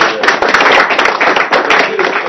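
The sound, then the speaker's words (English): Audience applause for a colleague at a work meeting: dense, loud clapping from many hands, steady and continuous for the whole moment. “So we'll give you a little of those applause, too.”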